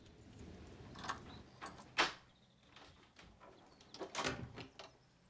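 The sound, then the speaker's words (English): Keys click and scrape in the lock of a house's back door off a patio, followed by the door opening. A few faint metallic knocks and rattles sound over a quiet background. “he fishes some keys out of his pocket and, reaching the back door, slips them into the lock.”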